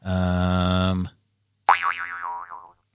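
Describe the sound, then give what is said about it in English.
A springboard boing sound effect starts with a buzzing, sustained tone. After a short gap comes a wobbling, falling boing that wavers as it fades. “What, just springboarding off something? Yeah, just springboard onto something else.”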